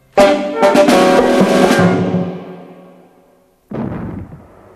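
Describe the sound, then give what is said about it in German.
Two small cannons fire salute shots: a loud, sharp boom trails off in a long rolling decay, then a second blast cracks out after a short silence. No voices are heard. “Zwei kleine Kanonen schossen harmlos wie ein Spielzeug zum blauen Himmel an.”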